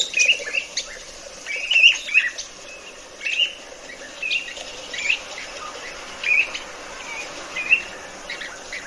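A bird sings in short, high chirps and brief trilled phrases, scattered at irregular intervals over a steady background hiss.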